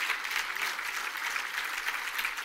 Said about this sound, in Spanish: Let's give the Lord a great praise offering. Vamos a darle un aplauso al Señor.